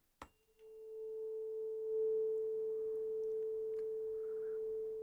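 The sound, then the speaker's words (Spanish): After a sharp click, a faint pure audiometry test tone starts and holds steady at one even pitch until the end, with a weaker overtone above it. “Ese es el grave y este es el agudo.”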